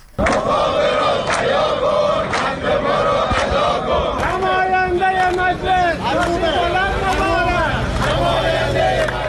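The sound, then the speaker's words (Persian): Protesters chant slogans at a rally of retirees in Iran. Loud crowd voices rise and fall in repeated shouted phrases over a dense, continuous background of babble. “در این تجمعات که از جمله در استانهای خوزستان، کرمانشاه، عراق و لرستان برگزار شد، معترضان شعارهایی از قبیل نماینده مجلس شاسی بلند مبارک سر دادند.”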